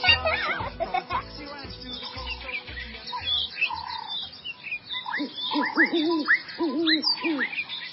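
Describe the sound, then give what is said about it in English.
Birds hoot, tweet and chirp in a busy chorus of many overlapping calls. Repeated hoot-like calls stand out in the second half. “just listen to all those birds. Oh, yes. Birds can tweet and twitter and hoot and shriek”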